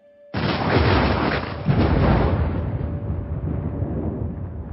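Thunder rumbles outside during a storm, opening with a sudden loud crash and a second burst soon after, then settling into a long, gradually fading rumble.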